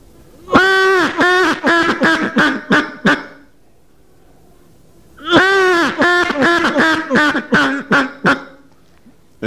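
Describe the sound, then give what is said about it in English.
A mallard hen's lazy quacking call as she wakes from dozing, two bouts of raspy, nasal quacks separated by a pause. Each bout starts with a loud, drawn-out quack and trails off into a run of shorter, softer ones. “and she'll take her head out from under her wing, and you'll hear a kind of a lazy mallard call, and it'll sound like this.”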